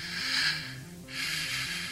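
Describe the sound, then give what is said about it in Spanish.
Faint breathing on the other end of a telephone line: two long, airy breaths, one after the other, with a low, steady hum beneath. “Carolina creyó percibir una respiración en el otro extremo de la línea.”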